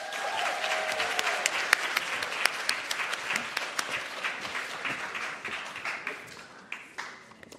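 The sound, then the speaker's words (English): Audience applause welcoming a speaker onto a stage in Washington, D.C.: dense, steady clapping from many hands, sustained throughout and thinning slightly toward the end. “So let's give a warm Washington, D.C. welcome to the one and only Nicole Hannah-Jones.”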